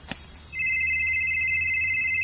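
A mobile phone rings with an incoming call from a mother. A small click comes first, then a bright, steady electronic ringtone starts and holds continuously at constant loudness.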